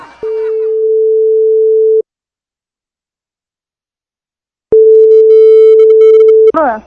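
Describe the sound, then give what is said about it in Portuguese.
Telephone line tone while placing a call: two long, steady, single-pitch beeps of nearly two seconds each, separated by silence. A voice speaks briefly at the very start and again as the second tone cuts off. “Liga de novo, liga de novo.”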